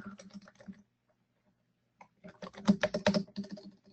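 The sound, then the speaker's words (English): Keys clatter on a computer keyboard during live scripting work: a brisk run of light keystroke clicks, then a pause of about a second, then a longer, louder flurry of keys that continues to the end. “It would really help if I could type.”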